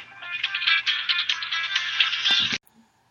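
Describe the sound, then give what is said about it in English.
A telephone rings with a bright, warbling electronic tone that trills continuously, then stops abruptly and leaves near silence. “Okay, we're back after Michael just had a phone call.”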